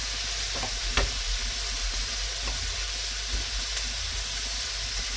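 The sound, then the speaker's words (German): Meat searing in a frying pan before onions go in, a steady, bright sizzle with a few sharp crackles and no talk. “Denn erst wenn das richtig angebraten ist, kommen auch Zwiebeln da rein.”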